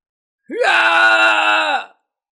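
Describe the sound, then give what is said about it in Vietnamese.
A man screams in agony after an arrow strikes his belly. One loud, sustained voiced cry lasts over a second, rising sharply in pitch at the onset, then holding steady before it breaks off. “Khương Hoài An kêu thảm thiết, ánh mắt lộ ra thần sắc tuyệt vọng.”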